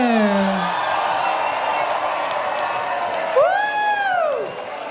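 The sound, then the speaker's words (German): Crowd noise at the Schmittner Openair festival: a sustained roar of cheering, with shrill whoops cutting through near the start and a loud rising-then-falling whoop toward the end. “Mach mal Lärm, bitte.”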